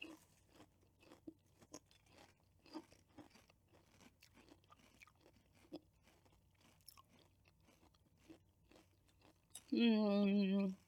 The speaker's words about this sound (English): Okay. Let's try this out here. See what's up. Prison chips.